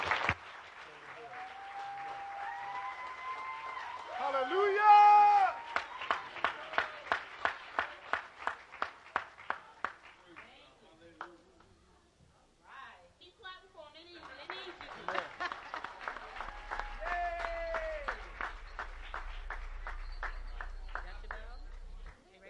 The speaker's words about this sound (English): So please give them a big hand and welcome them.